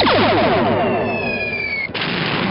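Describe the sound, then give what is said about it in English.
Weapons fired at an enemy target: a loud, sustained electronic blast with sweeping tonal streaks over dense rumbling noise, cutting off abruptly near the end and leaving a steady roar. “arm weapons. Target enemy. Ready? Fire!”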